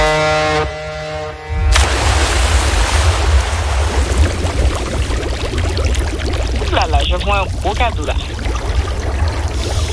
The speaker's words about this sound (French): Je mets mes lunettes de plongée. Mmh. Et puis, ben on y va. On plonge pour voir ce qu'il y a au fond. Ben, plongeons.